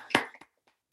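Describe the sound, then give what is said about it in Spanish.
A lone person claps at the close of an online talk. A few sharp, quiet hand claps come first, the first one loudest, then fade into silence. “A los que vean el vídeo, dirán solo un aplauso, que es el mío, pero no, seguramente están otros tantos, ¿no?, con los micrófonos apagados.”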